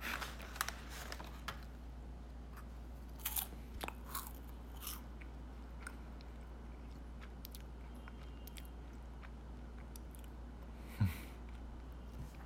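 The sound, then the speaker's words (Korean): Crunchy snack being bitten and chewed during close-up eating. Many faint, crisp crunches and clicks come in an irregular pattern, with one sharper bite near the end, over a steady low hum and no talking. “그냥 과자예요. 무슨 과자 먹어? 안타볼. 안타볼 먹어요.”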